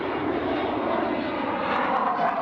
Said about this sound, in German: Heute ist eine Tiefflugausbildung. Wir fliegen halt Tiefflug über See und Tiefflug über Land.